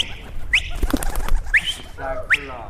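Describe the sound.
Pigeons calling in Ghazni, Afghanistan: three short, bright rising notes spaced about a second apart over a steady, noisy background with low murmuring sounds beneath.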